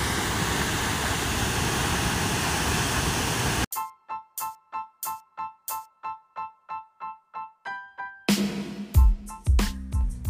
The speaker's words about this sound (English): another waterfall. Holy shit, man. Can you hear that? Let it wash over you.